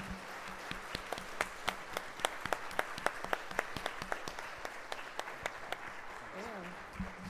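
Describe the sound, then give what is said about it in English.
Audience applause after a prayer: dense, steady clapping with many sharp hand claps throughout, fairly soft overall, with voices faintly mixed in beneath. “Thank you. Let's give him a hand.”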